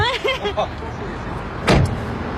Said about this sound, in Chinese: 您给开门。